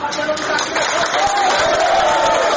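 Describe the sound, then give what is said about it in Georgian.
Crowd ovation from Gonio residents welcoming a decision: steady, dense cheering and clapping that holds at an even level throughout. “გადაწყვეტილებას გონიოელები ოვაციებით შეხვდნენ.”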